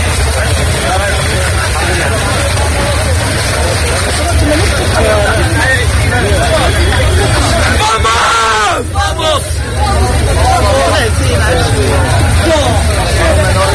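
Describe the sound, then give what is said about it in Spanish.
Hubbub of a crowd of people arriving across the Tarajal border crossing in Ceuta, young and old and whole families, some of them wet: constant overlapping chatter and shouts over a steady low rumble. “Con este sonido accedían por la tarde de este jueves desde la frontera del Tarajal, mojados, algunos, jóvenes, mayores, familias enteras, bebés, gente muy joven, pero también gente con cierta edad”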